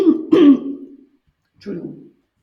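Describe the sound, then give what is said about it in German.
Throat clearing: a raspy, gravelly burst with a quick second push, then a brief silence and one shorter, softer clearing. “Ich muss einmal mich räuspern.”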